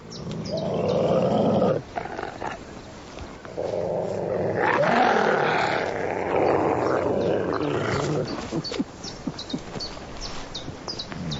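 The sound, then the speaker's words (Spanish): A wolf whimpering submissively to calm tension between two wolves, mixed with rough growling and snarling; a long loud stretch with a brief break near the start, thinning into sparser bursts toward the end. “Adopta un papel conciliador y gime para intentar calmar la tensión entre los dos lobos.”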